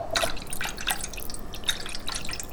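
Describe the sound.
Water dripping from a tap in Lyon, with a few sharp, bright drips standing out over a steady low hiss.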